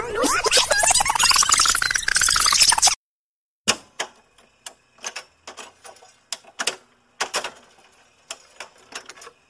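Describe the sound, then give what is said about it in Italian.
A cassette tape is rewound by turning it with a pencil. A dense whirring with a swooping pitch lasts about three seconds, then stops. After a short gap comes a string of irregular light clicks and ticks. “Direi di riavvolgere il nastro e tornare agli anni Ottanta. Facciamo subito. Prendo la mia matitina e riavvolgo il nastro.”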